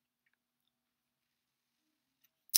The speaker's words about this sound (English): I click the capture tool